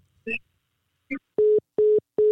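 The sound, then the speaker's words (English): A disconnect tone sounds as a call-in caller's phone line drops on air. Two brief clipped fragments come first, then three identical, steady, mid-pitched beeps, evenly spaced and loud. “Caller. Caller. Your call dropped. Call us back.”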